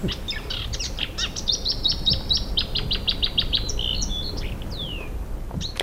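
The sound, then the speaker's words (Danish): A nightingale sings in summer with rapid, bright chirps and repeated high trilled notes, then a slurred whistle near the end, moderately loud over a faint background hiss. “et eller andet skete med optageren, så i stedet så blev det et genhør med nattergalen, der sang i sommer.”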